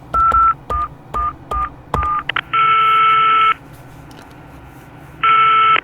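Touch-tone telephone dialing: a quick run of short, bright beeps, then two longer, steady tones separated by a pause, loud and clear.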